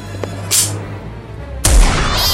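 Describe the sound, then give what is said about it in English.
A gunshot fired by a man at a cat, heard as a loud booming blast with a deep low end that lingers, following an earlier short hissing burst. “And shot Catnip.”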